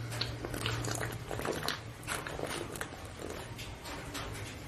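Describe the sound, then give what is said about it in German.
Beer being drunk from a bottle in long draughts, with many soft wet gulps and swallows in a steady, continuous run. “Ich muss nochmal ein Schlückchen Bier trinken. Ui, die Flasche. Ich glaube, das muss ich austrinken.”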